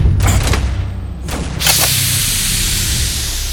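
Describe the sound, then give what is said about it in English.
Blaster shots ring out in a science-fiction action scene, a few harsh noisy bursts in quick succession followed by a lingering hiss. “Blast him. Get her on board. Oh, I am definitely going to shoot you.”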